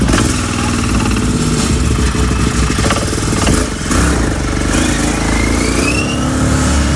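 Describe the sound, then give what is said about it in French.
A small car with a steering wheel and two pedals sets off on an hour-long scenic ride. A loud, continuous engine rumble with rattling clatter runs throughout, revving steadily with no voices. “Un volant, deux pédales. Et tout simplement. Il n'y a plus qu'à accélérer, freiner, tenir le volant et me suivre. Voilà. Allez, on est parti pour la balade.”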